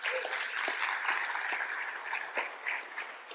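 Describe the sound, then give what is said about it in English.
An audience at a church service applauds to welcome a reverend as the speaker. Dense, continuous clapping holds at a fairly faint, even level throughout. “So why don't you put your hands together and help me to welcome Reverend Dr. Lynn Pearson.”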